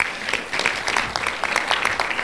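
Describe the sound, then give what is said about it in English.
Applause from a church audience for the ushers: a dense, steady patter of many hands clapping together throughout. “Give the ushers a huge round of applause”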